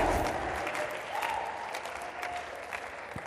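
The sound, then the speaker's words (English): An audience clapping hands together at a gathering, a dense and steady patter of many hands that keeps an even level from start to finish, with no clear speech. “Clap your hands and listen.”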